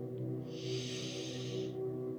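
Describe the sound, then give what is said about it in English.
A single long, deep breath forms a soft, airy hiss that swells and fades over a steady, low, sustained musical drone. “Take a deep breath in now and breathe out. Deep breath again.”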